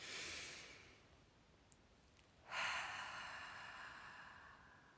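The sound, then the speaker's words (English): Deep, slow breathing, with a breath drawn in through the nose and then a long breath let out through the mouth. The outward breath is louder and airier, trailing off gradually. “take some deep breaths with me. In through the nose, out through the mouth.”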